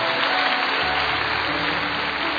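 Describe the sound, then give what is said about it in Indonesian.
Applause from a church audience: dense, continuous clapping that stays loud and steady throughout, with no pauses. “Tepuk tangannya paling meriah buat Allah.”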